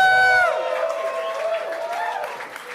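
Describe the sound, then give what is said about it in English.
A live show audience cheers and claps as a guest comes on stage, opening with a loud voiced whoop that fades into softer, steady crowd noise with voices over it. “Bring your hands together. Welcome to the stage of Tom Walker.”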